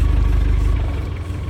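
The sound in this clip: A motor engine runs steadily in a low, even rumble with a slight vibrating texture. It holds at a constant level, with no talk over it.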